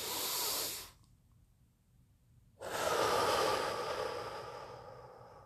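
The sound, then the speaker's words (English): A deep breath in and out, taken to release tightness in the chest: a short, airy inhale, a silent pause of over a second, then a long, loud exhale that slowly fades. “When I take that breath, it comes up tight, tight. And when I breathe out, it actually breathes down,”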